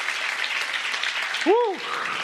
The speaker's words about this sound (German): Gebt mir Janet nochmal einen kräftigen Applaus.